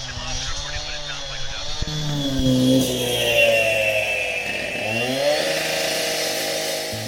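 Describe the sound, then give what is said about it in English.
A concrete saw cuts through concrete on a construction site, heard muffled through hearing protection: a continuous, dull grinding roar that holds steady at moderate loudness for the whole stretch. “Now someone has started to saw through the concrete nearby, but the TCAPs are attenuating the sound so that Sam and Katie can still hear it, but it's a much lower volume.”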